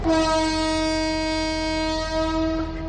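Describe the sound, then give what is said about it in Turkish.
Train horn blaring as a train departs, one loud, steady, chord-like blast held for nearly three seconds with no other sounds around it. “Tren kalkıyor, gitme.”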